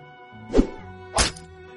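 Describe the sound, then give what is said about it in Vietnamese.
Sword striking into a body during a martial arts fight, heard as two dull, heavy thuds spaced a little over half a second apart, the second sharper and brighter, over a faint steady hum. “Mũi kiếm của viên tử linh rõ ràng là cùng một lúc xạ vào 2 tên, nhưng đến lúc tối hậu kiếm của viên tử linh đột nhiên nhập vào làm một, là vút vào tên bên tả.”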